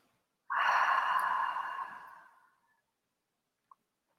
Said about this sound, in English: And last time, deep breath in. And exhale out.